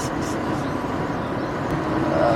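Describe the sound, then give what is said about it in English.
Steady road noise from a car on a drive home from Detroit: a broad, constant rumble and hiss that holds at an even level throughout, with no distinct breaks or separate events. “This is very nerve-wracking. Sketchy drive from Detroit home.”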